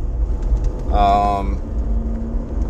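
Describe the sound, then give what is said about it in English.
Steady low rumble of a car driving on the road, a constant engine and tyre drone with a short voice-like tonal sound briefly rising above it midway. “This is me, I'm actually driving to work today.”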